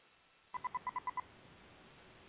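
Telephone dialing tones: seven quick touch-tone beeps in a rapid, even run, fairly faint, followed by low steady hiss.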